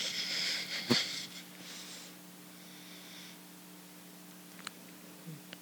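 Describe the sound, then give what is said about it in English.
Breath is pushed out slowly during a yoga exercise, a soft, breathy hiss that fades after about two seconds into near silence, with a few faint clicks afterwards. “And have a breath. And empty it out.”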